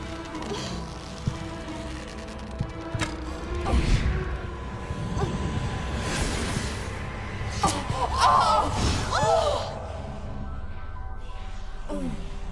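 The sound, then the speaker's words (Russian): A film scene in which an arrow is shot from a bow into a bathtub. Whooshing and sharp impact thuds sound amid busy film sound and music. “Ламберт хочет помочь и стреляет в ванну из лука.”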